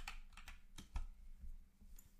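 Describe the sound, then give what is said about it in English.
Typing on a computer keyboard: many soft, irregular key clicks in quick succession, faint and without talk. “Oh wait, let me type in USA.”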